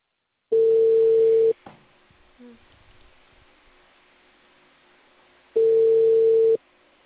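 A telephone line tone sounds while a call is being placed. Two steady, mid-pitched tones last about a second each, separated by a few seconds of near silence with faint low noise.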